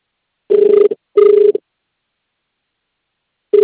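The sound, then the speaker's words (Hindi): Telephone busy signal: steady, low-pitched beeping, two short tones separated by a brief gap, then a long silence before a third tone begins. “The number you have dialed is currently busy. Please try later.”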